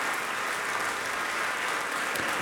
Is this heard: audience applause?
yes